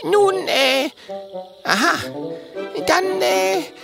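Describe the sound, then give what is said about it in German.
A person clears their throat in three rough, voiced bursts, each a gravelly, throaty rasp with a brief gap between them. The sounds are loud and close, with no other noise. “Er räuspert sich”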